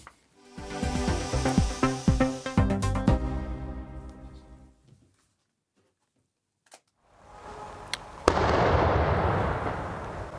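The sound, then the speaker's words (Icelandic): Swedish police detonate a suspected hand grenade found outside a house in Stockholm. A rattling run of many sharp bangs fades out, then a quiet gap, then one sharp blast gives way to a loud, sustained rushing rumble. “Þarna sprengdi sænska lögreglan hlut sem líktist handsprengju og fannst utan við hús í Stokkólmi í vikunni.”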